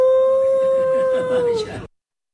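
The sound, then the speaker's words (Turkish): A child howls like a wolf, voice imitating the animal: one sustained, clear tone held steady for under two seconds, then dipping in pitch as it fades out abruptly. “Küçük şair şiirini bitirdikten sonra kurt gibi uludu.”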